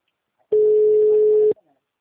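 Telephone busy signal after a dropped call: a single steady mid-pitched tone lasting about one second, sounding alone against silence.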